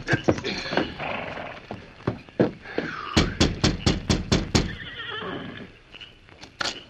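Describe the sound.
A horse whinnies and clip-clops as its rider reins up in front of a ramshackle cabin, with a quick run of sharp hoofbeats in the middle and softer snorting and shuffling around them.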